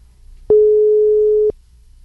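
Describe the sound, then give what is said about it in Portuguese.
A telephone ringing tone sounds while a call is being placed. It is a single steady, mid-pitched electronic tone lasting about a second, heard alone over a faint low hum. “Deixa eu ligar pro Davi. Vamos ver se ele atende nós daqui a pouco.”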